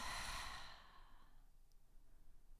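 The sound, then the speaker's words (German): A soft breath out through the mouth during a guided relaxation exercise: a single long, sigh-like exhale that fades within about a second, then quiet, faint breathing. “Nun lass uns noch mal zusammen durch die Nase einatmen und durch den Mund ausatmen.”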